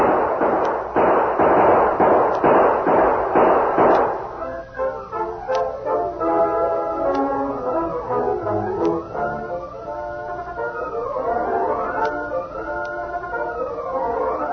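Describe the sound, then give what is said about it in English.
Several sharp gunshot cracks fire in quick succession in a western drama gunfight, then give way to a warbling tone with a few faint isolated pops. “Gun those hombres! Use your guns, men!”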